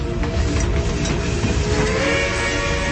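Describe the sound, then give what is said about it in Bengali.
Train arriving at a station: a steady, loud mechanical rumble with hiss and faint tonal squeals runs throughout, with no voices. “এদিকে train যথাসময়ে চলে এলো।”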